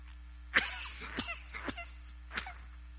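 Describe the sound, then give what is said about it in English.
A few abrupt throat clearings from someone with a persisting minor throat irritation, sharp rasping bursts separated by short pauses over a low steady hum. “Some minor throat irritation. Persisting. One second. Trying to get rid of it with the water.”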